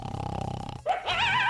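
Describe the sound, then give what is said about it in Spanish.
A dog growling and grunting at night on a bed: a low, rumbling, snore-like growl, then a brief pause and a higher, wavering whine-like vocalization. “Ahí lo tiene el perro por un lado.”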